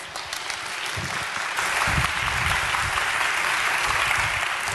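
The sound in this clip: Audience applause greeting a woman guest speaker at a morning gathering, a thick, continuous patter of many clapping hands that swells slightly after the first second and a half and holds steady to the end.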